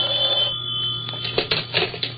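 A telephone bell rings for an incoming connected long-distance call, a rapid, bright, rattling ring that sounds in quick bursts over a steady low hum, with no talk.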